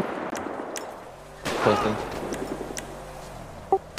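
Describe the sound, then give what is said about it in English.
Gunshots ring out in a police video game: a loud, sharp burst of gunfire, then a brief lull and a few more quick, crisp bangs near the end, over a low, steady background. “shots fired”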